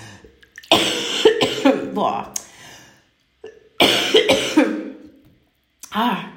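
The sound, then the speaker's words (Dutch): Someone coughs in two harsh clusters of throat-clearing coughs mixed with strained voiced sounds. A short quiet gap separates the two clusters. “ik moet even doorhoesten, want er zit iets vast.”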